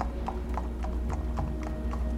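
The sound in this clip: A horse's hooves clip-clop in a steady walking rhythm, with several even, moderately quiet hoofbeats and no voices.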